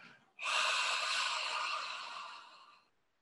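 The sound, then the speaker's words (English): A single slow, audible exhale from a breathing exercise: soft, breathy airflow that swells suddenly and holds steady for about two and a half seconds, then gradually fades out. No one talks. “an exhale that is twice as long. Awareness is following the exhale. And if you like, it's really useful to make it slightly audible.”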